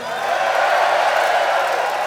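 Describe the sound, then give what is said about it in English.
Crowd cheering at a Motörhead rock concert, a dense, sustained roar of voices that holds steady for the whole moment. “Give yourselves a fucking cheer.”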